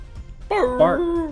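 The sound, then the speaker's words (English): A voice imitates a dog barking, standing in for the dog Twink, with two short, mid-pitched, bark-like calls close together. “barked. Twink barked.”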